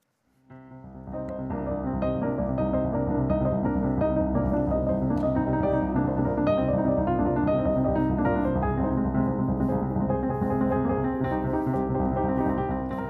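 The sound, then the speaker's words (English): Frenetic, busy instrumental music fades in within the first second, then runs steadily loud with rapid, crowded notes and no let-up. “It's like this is like a frenetic hamster wheel music. Kind of annoying.”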